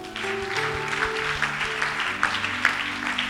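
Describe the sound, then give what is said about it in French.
A church audience applauds in acclamation of God, steady clapping over sustained musical tones, with a few sharper claps standing out near the end. “On acclame Dieu pour Jésus.”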